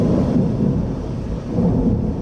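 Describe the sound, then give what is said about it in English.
Low, rolling thunder during a lake-effect snowstorm near Buffalo, with cold air and gusting wind. A loud, continuous rumble fills the whole stretch, swelling slightly near the end, with no voices. “And near Buffalo, thunder snow, as a lake effect mix of cold air, unpredictable wind, and snow clogged roads and towns.”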